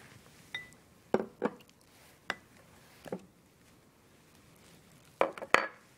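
Ingredients are mixed with packet taco seasoning in a bowl, heard as several faint, scattered clinks of utensil against bowl, spaced irregularly with quiet gaps and a closer cluster near the end.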